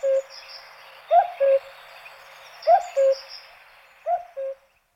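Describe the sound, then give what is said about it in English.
A cuckoo gives three two-note calls, each a clear low pair of notes repeated at steady intervals, with faint higher birdsong in the background. “Here's a cuckoo, not a bird that needs a mnemonic.”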